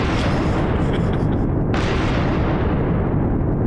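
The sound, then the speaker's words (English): Cannon fire sound effect: a dense, loud, continuous booming rumble, with one sharp burst cutting through near the middle, heard alone without talk. “Hold for cannon noises.”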